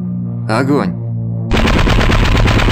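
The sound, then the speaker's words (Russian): An automatic gun fires from a boat in one long, loud burst of rapid shots that runs without a break to the end. A brief shouted voice comes just before it. “ударил автомат с лодки Видмана”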